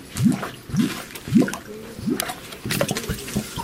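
Water gushes out of an opened, leaking pipe in a flooded home, gurgling in several rhythmic surges, each with a short rising glug, over a continuous splashing wash.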